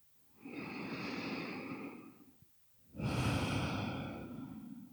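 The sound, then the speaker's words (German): Deep, slow breathing during a guided relaxation exercise: one long, soft inhale, a short pause, then a longer, fuller exhale. It is quiet and airy, with no talk. “Dann nimm hier ein paar tiefere Atemzüge ein und aus.”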